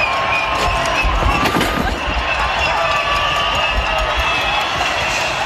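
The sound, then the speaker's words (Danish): Crowd of protesters blocking the road at the final Madrid stage of the Vuelta cycling race, a loud, dense roar of shouting and cheering voices that stays intense throughout with scattered sharper bursts. “Den sidste etape i Madrid blev jo faktisk aldrig kørt færdig, fordi demonstranter spærrede vejen. Vi kan høre her, hvordan det gik for sig.”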